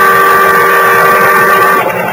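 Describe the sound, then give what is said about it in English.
A boat siren wails its warning in fog on the water as a loud, steady tonal blare. It is held at one pitch for about two seconds, then eases off briefly near the end. “But the boat siren, crying its warning, drowned out my shouts.”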